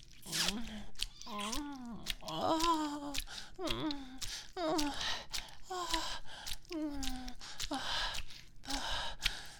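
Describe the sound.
Deep breathing, slow and uneven, with many breathy voiced sighs and gasps rising and falling in pitch, fairly soft and alone.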